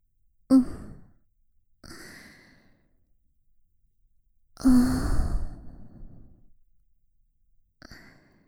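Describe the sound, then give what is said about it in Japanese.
Breathing close to the ear: four soft, airy breaths or sighs with quiet gaps between them, the third the longest and fullest, with no talking. “君の耳元で呼吸をしているだけなんだけどな。こうやって、”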